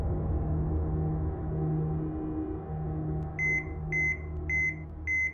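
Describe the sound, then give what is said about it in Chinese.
The alarm on a hospital ward's IV infusion line sounds four evenly spaced, high, clear beeps. They come in near the end over a low, steady hum. “病房里输液管上的报警器的滴滴声。”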